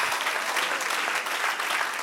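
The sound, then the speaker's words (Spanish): A church audience applauds at the close of a sermon, giving a steady, dense wash of clapping at moderate volume that continues evenly for the short clip without voices. “Dele un aplauso al que reina.”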